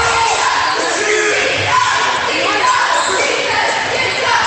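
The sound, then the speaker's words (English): A basketball dribbled on the court during a game, the bounces faint under loud, continuous crowd noise. “Dribbling around.”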